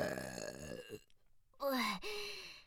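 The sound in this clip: A deep, voiced burp, loud and drawn out, ending in a lower rumbling belch after a brief dip. It follows a groaning vocal sound and a short pause.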